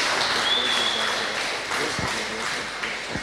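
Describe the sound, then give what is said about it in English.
Church audience applauding as a pastor comes up to the front, a steady, moderately loud patter of many hands with a few sharper claps, and voices mixed in underneath. “let's give a hand to Pastor Anil as he comes up.”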